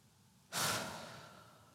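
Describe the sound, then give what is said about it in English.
A single breath drawn during a closing prayer at a church service: a soft, airy rush that starts abruptly, then slowly fades over about a second, faint and alone with no talk. “We're going to take just a couple of seconds here. So just breathe in.”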